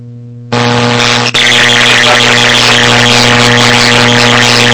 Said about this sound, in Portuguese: Decolando 1-0, curva à esquerda